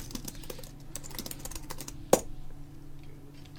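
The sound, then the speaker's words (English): Fingers type on a computer keyboard for hotel reservation software, producing many soft, quick key taps in an uneven run, broken by one sharper, louder clack partway through. “This is just a lady wearing her headphones, typing on her hotel reservation software.”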